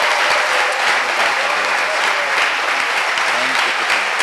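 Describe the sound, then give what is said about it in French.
An audience claps for the Lord during a church fasting-program service, producing continuous, loud, crowded applause that holds steady for the whole stretch. “Acclame le Seigneur. Clap for the Lord. Clap for the Lord. Clap for the Lord.”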